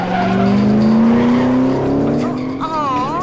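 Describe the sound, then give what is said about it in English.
A car swerves during a chase with its tires skidding: a loud, sustained engine tone climbs slowly in pitch, then a wavering squeal takes over near the end. “Vanessa swerves around a couple of cars while back in Bell's taxi”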